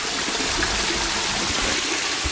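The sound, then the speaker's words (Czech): Rushing water in a mill race makes a continuous, dense roar at a constant loudness, with no pauses or separate events throughout. “Tady dovnitř se nedosune, ale aspoň ten krásný šum mlýnského náhonu. Ano, tady to je.”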